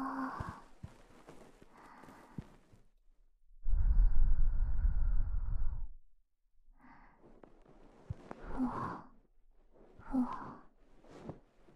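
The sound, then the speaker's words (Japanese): A fluffy bonten ear-cleaning brush makes one sustained pass of soft, dense rustling close to the ear, set among quiet breathy sounds before and after. “もう耳かきはいいよね。ポンテンやるから。ふわふわふわ。”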